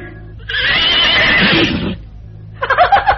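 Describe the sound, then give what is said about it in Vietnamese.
A horse neighing in protest in a stable, a long, loud, strained whinny, followed after a short pause by a second, shorter, rippling whinny. “Rồi con ngựa nó hí.”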